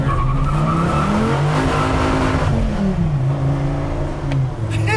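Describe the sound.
A car in sport mode spins out into weeds with its tires skidding and squealing over a loud, sustained engine roar. The engine note dips partway through.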